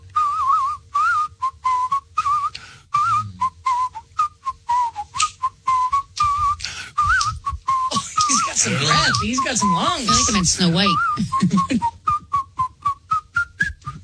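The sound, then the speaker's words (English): A person whistles an improvised tune in short, wavering phrases around a clear mid-high pitch, pausing often between notes, while another voice talks over the middle stretch. “So if pick a song, play a song, and I'll try to improvise whistling.”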